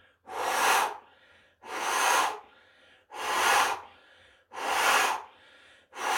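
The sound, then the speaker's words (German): Repeated forceful exhaling through the mouth as a breathing exercise: four long, breathy, hissing outbreaths at an even rhythm with short pauses between them, and a fifth starting at the end. “nämlich mehrmaliges Ausatmen durch den Mund. Dadurch wird CO2 abgegeben, dann kann man anschließend den Atem länger halten, den Bauch länger einziehen. Durch den Mund öfters aus.”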